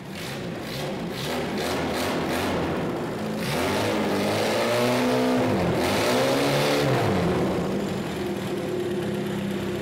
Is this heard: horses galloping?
no